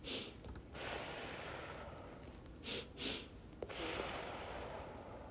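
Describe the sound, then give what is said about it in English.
A breathing exercise: two quick sniffing breaths in through the nose, followed at once by a breath out through the mouth, all soft over a steady background hiss. “breathing in quickly twice through your nose and then immediately out your mouth. And like, that's the fastest way to calm your body.”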